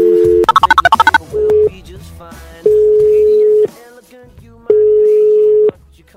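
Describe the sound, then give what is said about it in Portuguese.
A telephone call placed from São Paulo to Brasília: a steady dial tone, a quick run of seven keypad beeps, then a short tone and two long, evenly spaced ringing tones, loud and clear. “agora a ligação vai de São Paulo direto pra Brasília”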